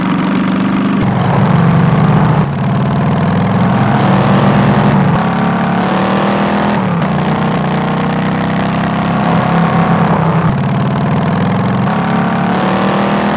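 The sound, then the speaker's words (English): Motorcycle engine as the bike is ridden around the desert: a loud, continuous engine drone whose pitch repeatedly climbs and drops through several shifts, with no talking. “rode the bike around the desert. Check it out.”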